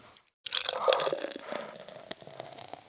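Liquid poured over a person: after a brief silence, a wet splashing rush starts abruptly, then settles into squelching, dripping sounds that gradually thin out, with no talk.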